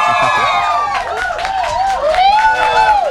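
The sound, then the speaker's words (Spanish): A studio audience of fans cheers and applauds at a live show, with loud overlapping whoops and shrieks sliding up and down in pitch over steady clapping. “Que se escuche que hay gente en el foro, por favor.”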